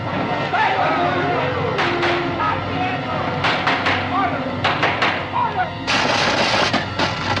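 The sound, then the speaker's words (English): Explosions and gunfire-like blasts ring out in a movie trailer about exploding a burning belt around the Earth, with many sharp bursts and a sustained roar near the end, under spoken narration. “The burning belt must be exploded clear of the Earth's magnetic field. And we have exactly 16 days and 3 hours in which to do it. Explode the belt and explode the world!”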